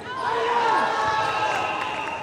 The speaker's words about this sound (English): But these boys running up and down the court and their friends and families in the stands have also come to this Minneapolis gym for something much more personal.